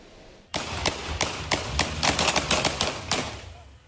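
Gunshots from police warning fire during a car chase on a street in Küçükçekmece, Istanbul: many sharp, loud cracks in a rapid, irregular series that bunch together toward the middle before stopping.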